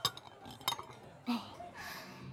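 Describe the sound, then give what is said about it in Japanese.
Light glassware clinks as empty glasses are cleared from a bar table, a few short, faint chinks spaced apart over a low background hum. “空いたグラス下げてもらってもいいですか？”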